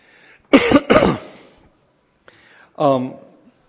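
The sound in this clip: A person with a tickle in the throat clears it in two harsh, rasping bursts. After a pause comes a short, faint rasp and then a brief voiced sound.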